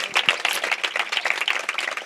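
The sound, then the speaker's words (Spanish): Scattered clapping for the Spanish teachers, quick and irregular claps from a small group that rise and dip in loudness. “Un aplauso para las profes de castellano.”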